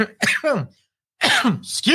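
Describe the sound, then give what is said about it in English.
Coughing and throat clearing from a person whose allergies are acting up: a few harsh, raspy bursts, then a short silence, then several more rough coughs. “how unprofessional, coughing allergies are kicking up a little bit”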